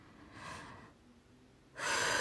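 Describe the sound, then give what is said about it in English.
A deep breath drawn in during a guided breathing exercise, airy and breathy, with a softer breath sound before it and a louder inhale at the end. “Take a nice deep breath.”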